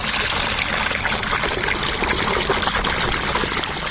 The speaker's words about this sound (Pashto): د اقرب ډکری فرمانلی بلچ په لاس د وربشو اډو او یا کیرو ته د اوبو وستې تړي چې کروندې خړو بشي